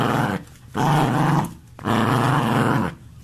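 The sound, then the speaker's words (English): A dog growls low and rough in three sustained rumbling bursts, separated by short breathy pauses. The growls are loud and close, with a deep gravelly texture and no other sounds. “That's my dog. That's my dog.”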